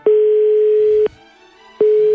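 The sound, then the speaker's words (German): Telephone ringback tone on a call to a Munich number: a steady mid-pitched hum lasting about a second, a short silence, then a second ring starting that runs to the end. “Aus München ist die Telefonnummer und ich versuche einfach mal mein Glück.”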